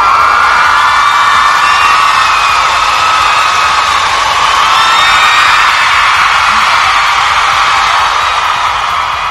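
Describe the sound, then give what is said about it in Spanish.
A crowd cheering and whooping in a loud, sustained ovation, with shrill whistles and yells over a steady roar for about nine seconds. “Es más, una ovación solo por eso.”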